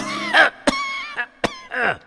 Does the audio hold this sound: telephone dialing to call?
no